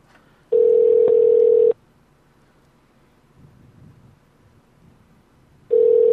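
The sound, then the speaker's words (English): A telephone line tone during a call to a Turkish restaurant: a steady, low, pure tone lasting about a second, then several seconds of faint hiss, then the same tone starting again at the end. “then we'll call back the Turkish kitchen, where hopefully Kanguzel picks up”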